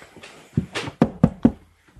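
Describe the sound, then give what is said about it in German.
Knocking on a wagon door in a tabletop role-playing game: a couple of softer taps and rustles, then three quick, firm knocks in an even rhythm. “Er klopft an den Wagen.”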